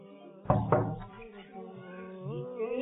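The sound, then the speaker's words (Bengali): Knocking on a door for the third time, two quick, solid raps close together, with a voice speaking around and after them. “আসুন তৃতীয়বার দিয়ে দেখি দরজা খুলে কিনা, যদি না খুলে তাহলে আমাদেরকে ফিরে চলে যেতে হবে। দেখি তৃতীয়বার খুলে কিনা।”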